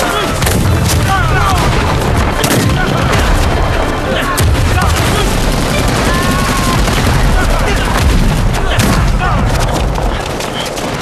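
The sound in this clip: Gunfire and machine-gun fire in a battle: a dense, loud barrage of overlapping shots, bursts and booms that runs without a break from start to end.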